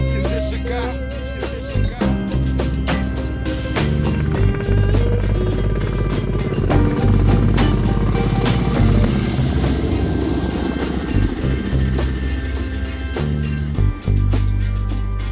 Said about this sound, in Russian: Да, здесь и вертолеты, и выстрелы. Все реально записано на фронте.